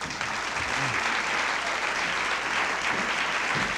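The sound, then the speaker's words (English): Audience applause welcoming a guitarist: dense, even clapping from a crowd that holds steady for nearly four seconds without a break. “Let's make Paul Reisler real welcome here.”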